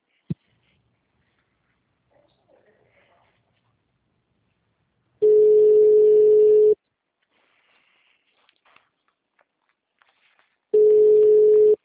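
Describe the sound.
Steady telephone line tone heard while a caller waits for an answer: a single flat mid-pitched beep sounds twice, each about a second and a half long. The gaps between are near silent, and the second tone is cut off at the end.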